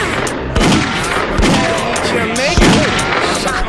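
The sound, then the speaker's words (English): Gunshots in a video game: a few sharp, booming reports at irregular intervals over a busy, noisy background of game sound. “Oh, he shot me.”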